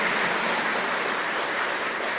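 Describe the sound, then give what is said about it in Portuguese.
Congregation applauding at a Portuguese-language church gathering, a thick, hissing wall of overlapping claps that blends into a rain-like roar and stays level for just over two seconds. “Sanga Escondida, uma salva de palmas, pessoal da Sanga Escondida.”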